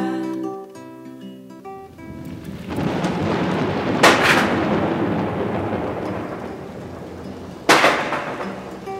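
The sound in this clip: Thunder rolls as a low, continuous rumble that swells into two sharp, loud cracks about four seconds apart, following a few seconds of soft tonal music at the start.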